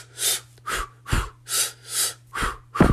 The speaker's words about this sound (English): One of my favorite breathing patterns is in for two, out for two. So I go,